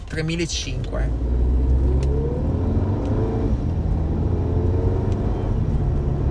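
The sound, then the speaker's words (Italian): A car engine revs hard, its loud, rumbling tone climbing to about 3,000 rpm, then dropping as the gear is shifted and climbing again. “Questa è la più merda sgasata. No, l'ho fatta apposta. Le ho fatte arrivare a 3.000 giri e ho cambiato marcia.”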